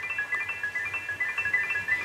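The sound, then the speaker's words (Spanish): Singing bowls ring softly during a guided meditation: a faint sustained high tone with shorter, bright ringing notes repeating over it at an unhurried pace. “Y ellos, los cuencos, empiezan a armonizarte”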